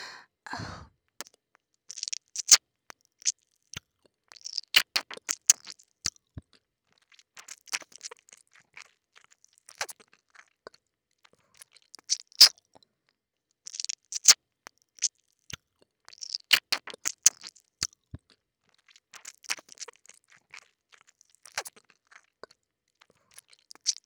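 Wet, sticky chewing and smacking of a thick substance in the mouth, heard as clusters of crisp clicks separated by pauses. The sounds are fairly quiet, and a breathy sigh comes at the start.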